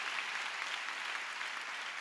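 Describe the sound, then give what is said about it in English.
Faint, even clapping from a church audience, a soft continuous wash with no individual claps standing out. “Oh, come on, you want to clap? Let's give the Lord a big clap.”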